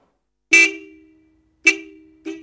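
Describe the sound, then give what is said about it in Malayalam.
Three honks from a car horn, each loud with a steady tone, sounding alone. The first two honks are longer, and the third is a short toot. “ഒരു കാറിന്റെ സൗണ്ടല്ലേ ആ കേട്ടത്?”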